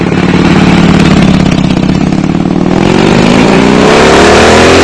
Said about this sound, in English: There he goes. You know, whenever I hear him fire up that Harley Davidson, you know, it's a tricycle